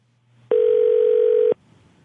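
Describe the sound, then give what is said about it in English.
A telephone tone sounds during a customer service phone call: a single loud, flat electronic beep lasting about a second, starting and stopping abruptly over a low background hum. “phone call.”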